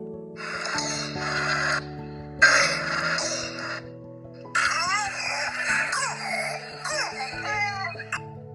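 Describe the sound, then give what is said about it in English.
A harsh, barking croup cough sounds in three hoarse, strained bursts separated by short gaps, over steady sustained musical tones. “Some cough have a peculiar sound like barking cough as seen in croup,”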